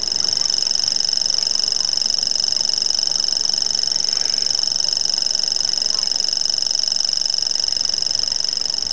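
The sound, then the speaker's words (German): Continuous high-pitched reeling of a grasshopper warbler at dusk, a steady, insect-like mechanical trill that holds unbroken and fairly loud through the whole stretch. “Ja, das sind auch Vögel. Am Tag eher seltener zu hören, eher so dämmerungsaktiv, aber auch nachts, alle 3. Und so begleitete uns dieses Geräusch durch die ersten Stunden.”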